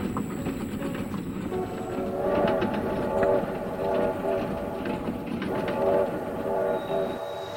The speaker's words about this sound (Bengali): কলকাতা থেকে ট্রেন যথাসময়ে এসে পৌঁছল কটকে।